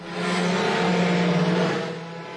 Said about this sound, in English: The president getting the party going with a lap of honor in the presidential limousine known as the Beast before waving the green flag to start the first ever IndyCar race in Washington, D.C.